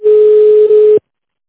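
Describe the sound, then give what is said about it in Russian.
A telephone ringing tone plays while a call is being transferred: one loud, steady, unbroken tone lasting about a second, then cut off abruptly into silence. “Выполняется перевод вызова. Ждите на линии.”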